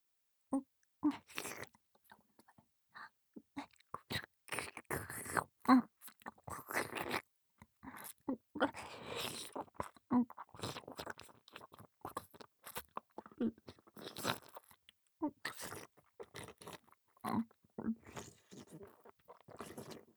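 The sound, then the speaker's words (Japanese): Wet swallowing and mouth sounds are picked up very close to the microphone, with many irregular soft clicks and gulps at varying loudness throughout. “それじゃあ、いつもみたいに飲み込むから。ええ、近くで聞いていてちょうだい。”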